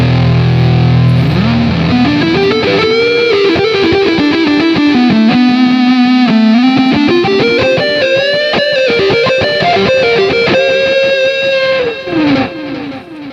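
A loud electric guitar runs through a distortion effect in Guitar Rig 5 software, playing a sustained, singing lead line. Bent notes glide up and down over a thick, buzzing tone, with no talking.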